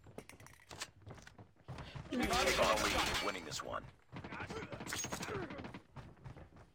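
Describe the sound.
Video game gunfire, with dense bursts of rapid shots in two main stretches and scattered single reports, while people talk over the action.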